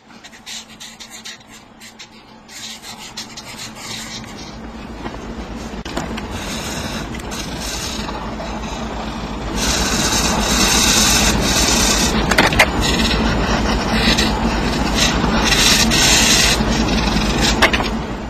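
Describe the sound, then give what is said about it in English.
Sped-up scratching of Sharpie markers drawing on paper forms a dense, continuous, rasping rub of rapid strokes. It becomes noticeably louder partway through and stays busy to the end, with no voices. “Just the sped-up sound of the Sharpies on paper”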